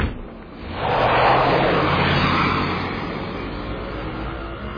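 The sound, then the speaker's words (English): A taxi speeds off in pursuit, its engine roaring in a broad, loud rush that swells within the first second, peaks, then eases into a steady drone to the end. “That old woman's getting into a taxi. I better step on it. Taxi! Taxi! Hey, man, follow that vehicle.”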